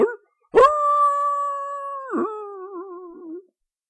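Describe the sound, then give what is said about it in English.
A dog howls in one long, sustained howl, steady at first and then wavering toward the end, forced out by being set under a window during singing lessons. “when Ichabod was singing, "Oh, the birds in the trees," the dog would howl even worse than Ichabod”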